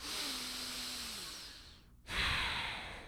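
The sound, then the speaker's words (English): One deep breath during a guided relaxation: a long, steady, quiet inhale, a brief pause, then a stronger, breathier exhale, with no talking. “So taking a deep breath with us.”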